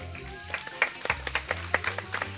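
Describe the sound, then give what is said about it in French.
An audience at a school event applauding a pupil: faint, scattered claps from a small group over a low hum, irregular and sparse rather than a full ovation. “Malik, on l'applaudit.”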